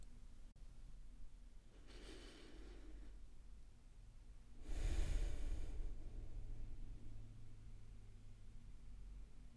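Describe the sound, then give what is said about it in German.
Slow, deep breaths taken during a guided mindfulness exercise: a couple of long, soft, airy breaths, fairly faint over a quiet background hiss, with no talking. “lade ich dich ein, einmal kurz alles beiseite zu legen und ganz bewusst drei tiefe Atemzüge gemeinsam mit mir zu nehmen, damit wir hier und jetzt ankommen können.”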